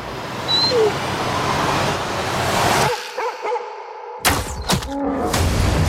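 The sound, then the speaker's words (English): Ambient sound from the trailer for the film Prey: a dense, rushing wash of noise that cuts out abruptly about halfway through, leaving sparse low tones before a few sharp, loud hits break in. “That is part of the trailer for Prey, which again is out on Hulu now.”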